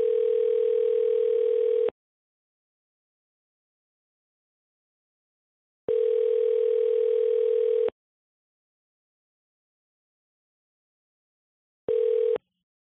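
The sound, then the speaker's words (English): A telephone ringback tone plays while calling a smoke shop: three steady, buzzy tone bursts of about two seconds each, separated by long silent gaps, the last one cut short; no voices. “Calling the smoke shop.”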